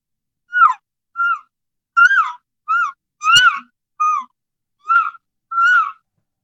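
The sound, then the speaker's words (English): An imitated elk calf calling for its mother: eight short, high, whiny mews that bend downward at the end, spaced evenly with silence between them. “Now listen, sometimes when that calf is looking for mom, they might sound like this.”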